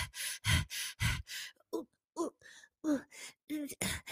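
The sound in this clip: A voice imitates anime-style heavy breathing sound effects, with a run of loud, breathy huffs and gasps followed by shorter voiced, moaning breaths in an uneven rhythm.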